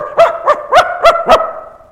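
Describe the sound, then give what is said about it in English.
A person imitates a dog during a church service, giving five short, voiced barks in an even rhythm. The barks are fairly loud and heard alone, with no other talk. “Suddenly during the service, a person would just start barking like a dog.”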